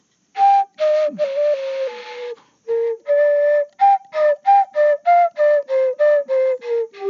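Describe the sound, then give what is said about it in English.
A flute is played freely in an exploratory way, clear and alone. A few longer held notes come first, then a string of short, detached notes that drift gently downward in pitch. “And it's amazing when you just kind of play around on a flute and start exploring sounds.”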